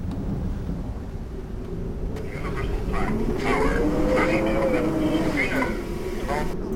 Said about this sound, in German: Wir sind in 3800 Metern über dem Gewitter abgeschnitten.